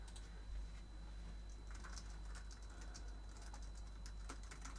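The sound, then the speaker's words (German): Keystrokes on a computer keyboard as a chat message is typed: many quick, light taps run steadily throughout with no talking. “Ich schreibe den Satz nochmal in den Chat.”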